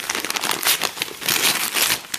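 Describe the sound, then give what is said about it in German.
Crinkling and rustling as a parcel is unwrapped: continuous crackly paper or plastic handling in uneven surges, fairly loud, with no voices. “Ich habe ein Paketchen erhalten. Ja. Und ich werde es jetzt einfach mal auspacken, wenn ich so, wenn ich darf.”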